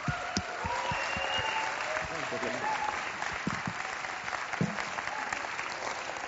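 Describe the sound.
Sustained applause from a church audience welcoming a guest speaker at a Sunday morning session: dense, steady clapping throughout with a few sharper individual claps standing out and some voices mixed in.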